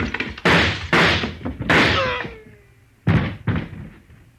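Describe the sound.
Several sharp, loud gunshots in a dramatized scene, fired in an irregular sequence, each with a brief decaying tail.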